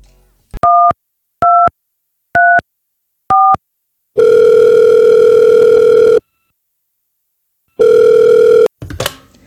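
Telephone tones: four short, evenly spaced two-tone dialing beeps, then two long steady ringing tones separated by a pause, ending with a brief click of the line.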